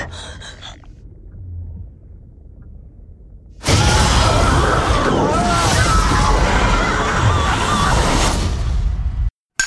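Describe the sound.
Deep booming and watery rumbling from a movie trailer about a dive to the ocean floor seven miles down. A near-silent opening gives way to a sudden loud, dense roar that lasts several seconds before cutting off abruptly.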